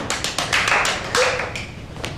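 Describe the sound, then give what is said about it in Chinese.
A few people clap hands in short, sharp, irregular bursts. The claps are separate and distinct rather than a continuous roll, heard alone with no talking. “鼓掌。”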